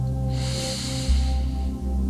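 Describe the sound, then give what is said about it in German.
One slow, deep inhalation through the nose, a soft airy hiss lasting over a second, over a steady low drone in the background. “Atme nun in deinem Tempo tief durch die Nase ein”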